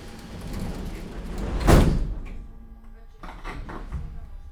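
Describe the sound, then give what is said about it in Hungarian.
Sliding doors of a metro train shut with one loud, heavy thud after a brief rushing swell, then settle into a quieter, steady rumble with a few faint knocks. “Kérem, vigyázzanak, az ajtók záródnak.”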